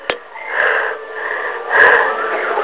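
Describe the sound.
A woman's voice imitates heavy, loud breathing, like someone breathing right beside her ear. There are two long, hissing, breathy swells, and the second is stronger.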